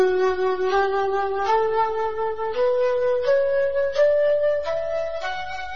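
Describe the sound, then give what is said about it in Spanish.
A knife grinder's pan flute (flauta de afilador) plays a series of breathy, whistling tones that step steadily upward in pitch, each note sustained and clear, with no one talking. “la flauta de afilador que tiene, suena así, a ver.”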